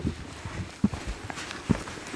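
Footsteps crunch across a rocky pine forest floor with bare rock outcrops: a few soft, irregular footfalls stand out against faint rustling, with no voices.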